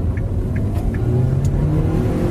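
A Toyota Corolla 1.8 accelerating: a loud, steady low engine drone and road rumble that carries through the whole clip, with no voices.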